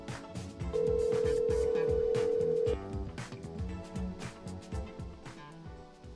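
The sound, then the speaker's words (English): A telephone call being dialed and ringing out: a steady, loud mid-pitched tone holds for about two seconds and then cuts off, while other rhythmic sounds continue underneath. “We're dialing.”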